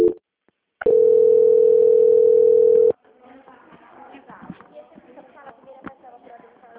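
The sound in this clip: A steady telephone line tone sounds while a call is being transferred. After a brief click, a loud, constant, pitched hum lasts about two seconds, then cuts off into faint, muffled sounds.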